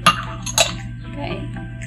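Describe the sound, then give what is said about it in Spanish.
A spoon stirs a mixture with vanilla extract in a bowl, giving two sharp clinks against the bowl followed by softer scraping over a steady low hum. “ahora seguimos revolviendo también chicos”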